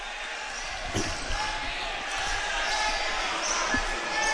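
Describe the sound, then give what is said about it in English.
Basketball bouncing on a gym floor during a Grants Pass game, a few sharp thuds of a dribble standing out over a constant wash of crowd and arena noise. “Jesse gets the ball in to Bruner. Bruner right back to Jesse. Jesse being bothered quickly by Shelley. Jesse puts the ball on the floor into the forecourt right-hand side.”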